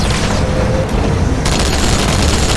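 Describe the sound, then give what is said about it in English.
Heavy weapon fire from the Halo video game, a rocket hog or gauss cannon mounted on a Warthog, heard as loud, dense booming blasts running continuously with no pause. “It is like a rocket hog thingy or gauss. Should we get a rocket hog? Probably should.”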